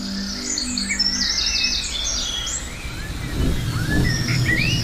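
Young fledgling birds chirping in a valley, many high thin tweets and short rising calls overlapping throughout, while a low rumbling noise swells underneath in the second half.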